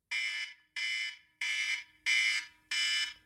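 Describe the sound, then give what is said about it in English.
A timer alarm sounds five evenly spaced high electronic beeps, each a bright sustained tone cut off by a short silence, moderately loud and with nothing else heard. “And when the 5 minutes are up, there will be an alarm and it will sound like this.”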